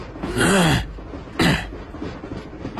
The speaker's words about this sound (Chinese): 这个算命先生使劲清了清嗓子